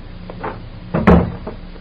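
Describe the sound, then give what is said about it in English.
A door is pulled shut in a warehouse. A couple of soft knocks lead into one solid, woody thump, followed by a short fading rattle. “Close the door.”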